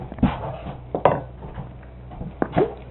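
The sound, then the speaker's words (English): Spoon being fetched from the cutlery while serving salad: a few light metallic clinks and clatters, short and separated by quiet pauses. “Let me get you a spoon.”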